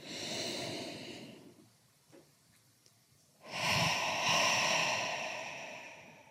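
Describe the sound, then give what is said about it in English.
A slow, deep breath in and out during a guided relaxation exercise: two long, loud, airy rushes of breath separated by a quiet pause of nearly two seconds, with no talking. “So I invite you during this time to take a deep breath. And again, let's remember to let that inhalation make our bellies inflate.”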